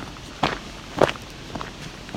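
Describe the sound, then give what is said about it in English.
Footsteps walk through a maple forest with a high canopy, a few soft crunching steps on the forest floor at an unhurried pace, with faint background ambience between them. “Now we're walking through maple forest.”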